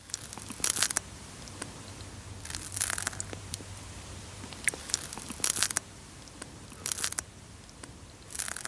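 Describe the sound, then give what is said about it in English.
Crisp crunching and tearing as a snail eats a piece of lettuce, recorded in an anechoic chamber: short bursts of bites recur every second or two over a faint, steady background, with no voices. “Believe it or not, that's the sound of a snail chowing down on a piece of lettuce.”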